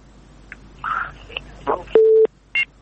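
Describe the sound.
Telephone busy tone after a radio call-in caller is disconnected: a single short, steady mid-pitched beep, with brief voice fragments around it.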